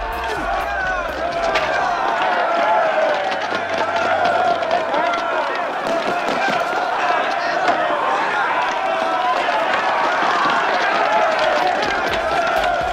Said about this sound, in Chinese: 发现不对劲儿的学员们赶紧撒丫子的逃跑。